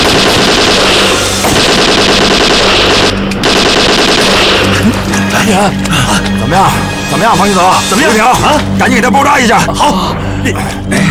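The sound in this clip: Sustained machine gun fire in a firefight, a dense, loud stream of many rapid shots that continues throughout, with people shouting over the gunfire.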